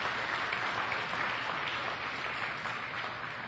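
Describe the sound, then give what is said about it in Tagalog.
Applause from a church audience praising God: a dense, steady wash of many clapping hands that holds at an even level throughout. “Palakpakan natin ang Lord.”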